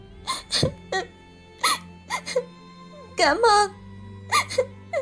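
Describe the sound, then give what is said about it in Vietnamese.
Woman sobbing in choked, hiccuping bursts: many short, breathy cries with wavering pitch, fairly faint, over a low steady hum. “Vừa định đi thì Mộng Bình nhảy tới ôm Hoàng khóc ngất.”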